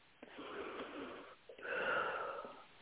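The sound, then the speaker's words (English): A person taking one deep breath: two long, airy, moderately loud passes of breath with a brief gap between them, the second fuller and stronger, with no talk. “I'm just going to take one big breath.”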